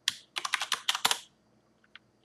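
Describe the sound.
Keystrokes on a computer keyboard while code is typed: a quick flurry of many crisp clacks in uneven rhythm, then a pause and two softer taps near the end.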